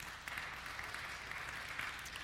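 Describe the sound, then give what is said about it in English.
Applause from an audience at a religious talk: a faint, steady patter of many hands clapping together, continuous throughout with no voices over it. “And that's exactly, you can clap for that.”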